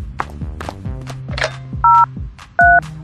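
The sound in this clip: Telephone keypad tones as a phone is dialled to call an ambulance: two loud, steady electronic beeps, each under a quarter second, over continuous background sound.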